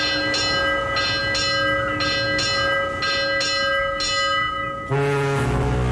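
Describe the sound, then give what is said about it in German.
A ship's bell rings as a ship departs during a sailing festival, striking many times in a steady rhythm with a bright metallic ring. A lower, sustained tone then follows. “Wie oft hat da die Schiffsglocke geläutet?”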